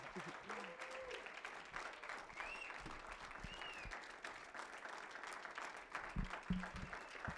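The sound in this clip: A church audience claps in welcome, sustained applause running steadily throughout, with a voice briefly audible over the clapping.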